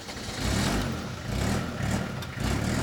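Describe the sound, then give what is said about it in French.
A truck's engine starting up and driving off in a village, a low, rough rumble that swells in a few surges as it revs, steady and fairly loud, with no voices over it. “Le camion démarre.”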